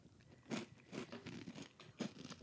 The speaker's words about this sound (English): I'm going to get a marshmallow. Is that a really big bite?